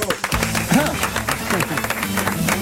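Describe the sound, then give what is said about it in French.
An audience claps to welcome a guest, a quick patter of applause running under a voice and other sound throughout. “Je vous demande d'accueillir Guillermo Guiz.”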